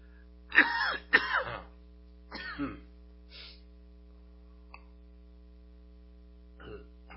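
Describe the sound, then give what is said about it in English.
Someone clears a tickle from their throat in a few rough, rasping bursts that fade to softer ones, with a low steady mains hum underneath throughout. “Got this little tickle in my throat.”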